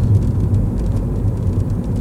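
A car rumbles over a badly damaged street in Berlin, making a loud, continuous low rumble with a rough, bumpy texture and no voices.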